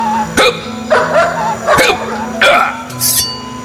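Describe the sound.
A dog barks five times in a steady rhythm, giving loud, sharp yaps over a low sustained drone.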